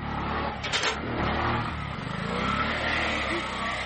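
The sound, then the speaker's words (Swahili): A car engine revs hard while the vehicle sits stuck in mud on a rough, badly damaged road, giving a loud, continuous roar that holds steady without clear breaks. “Gari letu kidogo limekwama kwenye tope hapo”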